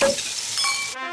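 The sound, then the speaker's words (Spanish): Sizzling of a thick bone-in rib steak frying in a pan: a steady, bright hiss that lasts about a second, then cuts off abruptly. “Y el chuletón con el que celebras cambiarte a Línea Directa, así.”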